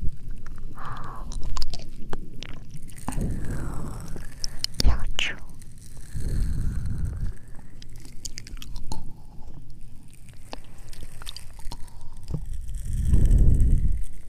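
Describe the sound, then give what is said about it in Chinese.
Soft wet crunching and squishing as an animal slowly chews paralysed prey with its teeth, a continuous run of bites and mastication with a voice speaking over much of it. “用牙齿慢慢咀嚼被麻痹的猎物”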